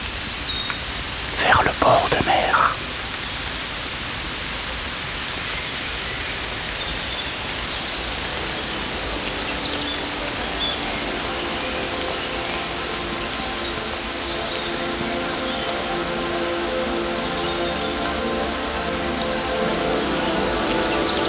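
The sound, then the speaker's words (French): Raindrops falling in a steady, even patter that continues throughout, with a brief louder rustle near the start. “Gouttes de pluie.”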